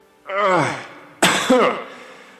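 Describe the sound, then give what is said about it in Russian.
A voice performs a harsh throat clearing for an elf whose lungs are full of water after nearly drowning: two rough, forceful bursts, the second splitting into a quick double push, with no words. “Эльф откашлялся и ответил.”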